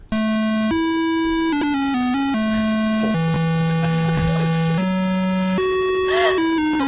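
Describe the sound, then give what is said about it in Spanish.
Electronic music from a video game regarded as the worst ever made, buzzy square-wave tones that jump between held notes of different pitches, loud and steady with no voices. “quiero hablar del que es considerado el peor videojuego de la historia y que suena así.”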